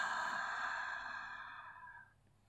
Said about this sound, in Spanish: Inhala, expande tu abdomen y caja torácica. Retén el aire en 4, 3, 2, 1 y suelta.